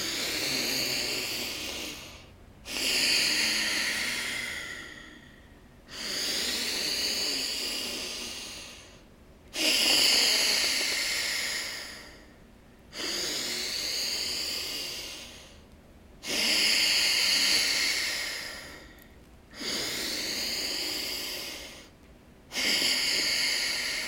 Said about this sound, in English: Bhastrika breath, deep breath in, powerful breath out.